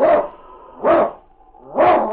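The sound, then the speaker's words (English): A husky lead sled dog of the snowy Northwest gives three loud, sharp barks, spaced about a second apart, with quiet gaps between them. “It's Yukon King, swiftest and strongest lead dog of the Northwest, blazing the trail for Sergeant Preston of the Northwest Mounted Police in his relentless pursuit of lawbreakers.”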